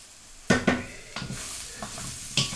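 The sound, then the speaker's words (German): Wine splashes into a pan of frying aubergines in oil, bringing a sizzling hiss and a few sharp clatters of cookware, loudest at the start and then settling into a softer fry. “Schütte ich halt noch ein halbes Gläschen Wein rein. Also so ein Schwapper, 0,1 ungefähr.”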